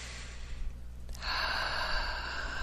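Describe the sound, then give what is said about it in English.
A deep breath drawn in during a guided relaxation exercise, a soft, airy inhale that starts faint and swells into a steady rushing breath that holds to the end, with no talk. “Just take a nice deep breath, please.”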